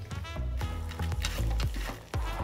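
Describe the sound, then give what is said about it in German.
Diced bacon frying until crisp gives a steady sizzling hiss, with a few soft stirring scrapes through it. “Die Geheimzutat Speck wird auch klein gewürfelt und knusprig frittiert.”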